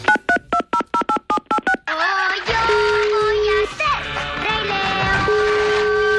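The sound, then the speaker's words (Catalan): Keypad tones beep in a rapid, evenly spaced string as a telephone number is dialed, each tone short and bright, then the dialing gives way to a denser mix of other sound. “Sort que l'APM tenim el seu telèfon i que ara mateix el trucarem, mira.”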